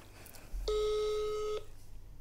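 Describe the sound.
A telephone tone sounds once as a steady, pitched electronic beep lasting about a second, clear against low background noise.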